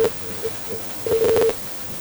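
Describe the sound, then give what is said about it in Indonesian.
Telephone line tones as a call connects and then drops: a few faint short beeps, then a louder cluster of rapid tones that stops abruptly, leaving only soft line hiss. “Ini Bang Noel udah masuk lagi telepon, langsung saja kita angkat mungkin ya?”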